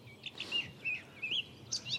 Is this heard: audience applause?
no